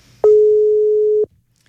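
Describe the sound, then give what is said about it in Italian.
Telephone busy tone after a dropped phone line: a single steady, mid-pitched tone lasting about a second, loud and alone, cutting off into near silence, with a faint murmur before it. “Pronto, ci stiamo riprovando, non so se è caduta la linea. Sì, è caduta la linea, proviamo un attimo di nuovo.”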